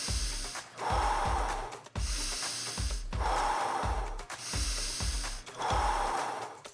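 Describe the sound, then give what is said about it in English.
Deep breaths in and out during a breathwork practice: three long, loud, hissing breaths with quieter pauses between them, over a steady low pulsing beat. “Final few breaths in, final few breaths back out.”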